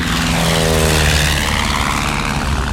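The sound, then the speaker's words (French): Loud, steady drone of an old rattling propeller airplane rolling down a runway and lifting off, with a throbbing engine hum beneath broad rushing noise that stays even throughout, and no voices. “Un mécanicien tourne l'hélice. La carlingue vibre. Le tas de ferraille roule sur la piste. Il prend de l'élan, il quitte le sol, ça y est, il décolle!”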